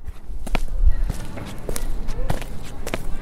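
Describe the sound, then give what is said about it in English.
Footsteps of someone out on a walk: several evenly paced steps land one after another, each a crisp tap over a soft, continuous background. “Imagine yourself taking a walk.”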